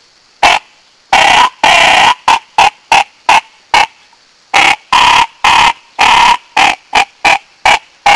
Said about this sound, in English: The DJ, model number K11, slider, adjustable, diver, duck call